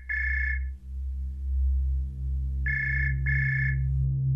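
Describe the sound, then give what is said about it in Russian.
A telephone rings with three bursts of a steady electronic tone: one ring, a pause, then two rings close together. A low continuous hum runs underneath. “Внезапно раздался звонок.”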